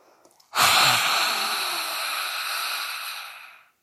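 A long, deep inhalation during a yoga breathing exercise: a loud, airy rush of breath that starts abruptly, holds for about three seconds and fades at the end, heard alone.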